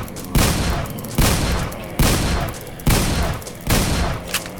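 Shotgun firing in a video game: five heavy, booming blasts at a steady, even pace. Each one is loud and ends in a short decaying rumble.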